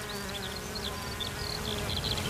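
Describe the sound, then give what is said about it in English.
Honeybees buzzing in warm sunshine while gathering pollen and nectar among heather, a steady, faint, continuous hum with no voices. “It's also become a haven for honeybees, who make the most of the warm sunshine to gather pollen and nectar,”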